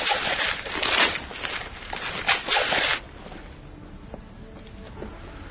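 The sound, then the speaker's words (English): Gift wrapping paper is ripped open in a few loud, crackling bursts of tearing over about three seconds, then everything drops to near silence. “Rip it. What is it? I'm going to... All right, I'll rip it.”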